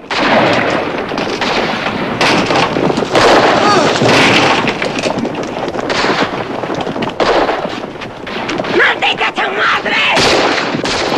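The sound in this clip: Gunfire in a film shootout with bandits: many loud, sharp shots crack in rapid, uneven bursts that keep going almost without a break, with heavy booming reports mixed among them.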